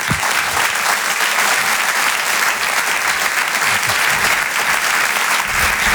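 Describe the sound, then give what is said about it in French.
Loud, dense applause from a theater audience welcoming a comedian onto the stage at a French comedy night. The clapping stays steady and unbroken for the whole stretch, with no voices rising above it. “Bonsoir, merci pour votre accueil, merci pour vos applaudissements, ça me touche vraiment beaucoup”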